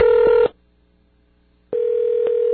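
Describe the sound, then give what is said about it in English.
A telephone ringback tone sounds as a call to Wisconsin goes through: two steady buzzing tones, a short one then a longer one, separated by about a second of near silence. “That's the sound of his phone.”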